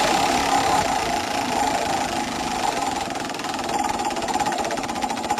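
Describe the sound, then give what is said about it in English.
Fast, continuous rattling clicks of a prize wheel spinning, holding steady and fairly loud across the whole stretch. “Without further ado, let's give that wheel a spin.”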